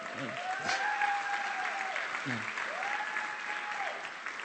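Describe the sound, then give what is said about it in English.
An audience gives the speaker's parents-in-law a big hand, a brief burst of steady, full applause from many people that holds at an even level for a few seconds. “Y'all stand up, say what's up. Everybody give them a big hand.”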